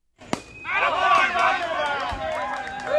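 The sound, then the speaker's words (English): A sharp crack rings out at a youth sports game, then parents cheer on their children, a loud swell of overlapping shouts and excited voices that stays lively throughout. “That's the sound of parents cheering on their own little superstars.”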